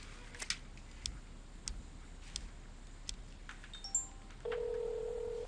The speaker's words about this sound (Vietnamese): Không bắt máy có phải không? Tôi cũng đã gọi mấy lần rồi nhưng đều không nghe máy.